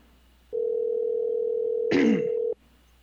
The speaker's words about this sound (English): If we can get him on the phone. All right, so dial it up.